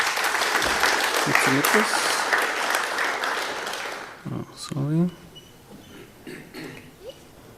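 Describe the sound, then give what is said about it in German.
Audience applause at a tech conference as a talk is introduced, a loud, dense burst of clapping that fades out midway, followed by a man speaking. “Schon mal einen Applaus dafür, bitte.”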